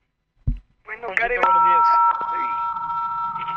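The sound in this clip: Incoming phone call signal: a short thump and brief voices, then a steady electronic beep of over half a second, followed by a sustained tonal hum.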